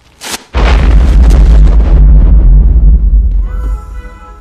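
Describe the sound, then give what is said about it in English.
A bomb hidden in a Christmas package goes off with a sharp initial crack, then a loud, deep boom. The heavy rumble sustains for a few seconds before thinning out, and a steady high ringing tone follows. “That was really a bomb.”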